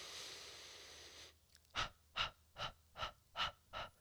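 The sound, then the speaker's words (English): Breath of fire, fast in-and-out breathing: a steady breathy rush, then six quick, sharp breath bursts in an even, brisk rhythm, fairly faint and with no talk. “So you can do like, I think it's called like breath of fire, or like fire breaths, where it's like you breathe in and you breathe out like fast with little like struts.”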